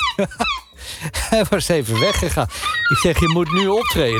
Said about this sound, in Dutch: Dit is een luidruchtige meeuw op misschien wel jouw balkon of bij je in de achtertuin. Want de zilvermeeuw, hij lijkt overal in de stad te zitten.